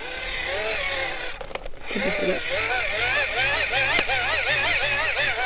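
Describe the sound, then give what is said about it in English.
A hand-crank radio is wound in a garden, producing a whirring gear whine that rises and falls with each turn in a steady, repeating cycle. “I just love that cranking noise. Okay. And so that powers the radio.”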